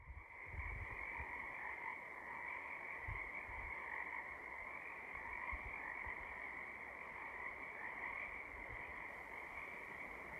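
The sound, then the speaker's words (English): Frogs croak in a dense spring chorus on Cortez Island. Many overlapping voices form a steady, buzzing trill that carries without a break for the whole stretch, with low thumps beneath and no talk. “the wonderful phenomenon of frogs singing in the spring, as well as other amphibians on Cortez Island”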